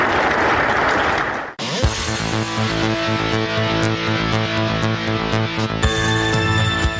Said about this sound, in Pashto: په اخیر کې ځوانانو او تنکیو ماشومانو د ورزش په برخه کې خپل نمایشات هم وړاندې کړل چې په چکچکو بدرګه کېدل.